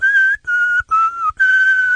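A man whistles a song's melody for a guessing game: four clear, sustained, fairly high notes with short breaks between them, the third a little lower, loud and alone.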